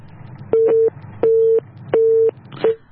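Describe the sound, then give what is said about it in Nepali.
Telephone busy tone after a call is disconnected, sounding as four steady mid-pitched beeps in an even on-off rhythm, the fourth cut short, over a low background hum. “भर्खरै telephone सम्पर्कबाट सम्पर्क विच्छेद भएको छ,”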